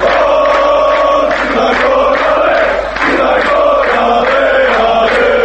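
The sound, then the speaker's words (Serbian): Football fans cheer and chant at a European Championship qualifying match, a dense, steady roar of many voices that holds at a constant level for the whole stretch with a rhythmic swell running through it. “Ovo, nažalost, nisu navijači crnogorske reprezentacije koji u Poljskoj ili Ukrajini bodre nacionalnu selekciju, već samo snimak sa jedne od utakmica kvalifikacija za ovogodišnje Europsko prvenstvo u fudbalu, na koje crveno-žuti nisu uspjeli da se kvalifikuju.”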